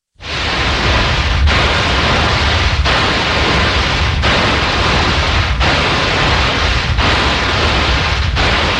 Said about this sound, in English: People with tinnitus hear a sound like this all the time. There are all kinds of things that cause tinnitus.